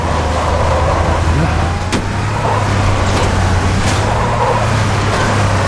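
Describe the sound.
A Warthog vehicle drives in a video game, its engine a steady low drone with constant road noise, broken by a few sharp clicks and knocks.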